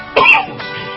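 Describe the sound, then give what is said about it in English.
One short, dry cough sounds abruptly, moderately loud, then trails into a faint hoarse breath with no talk. “Hey, a little cough now and then is good for you.”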